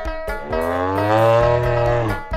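A young cow moos in one long, loud, steady call lasting about two seconds, rich and buzzing with harmonics, heard alone without talk.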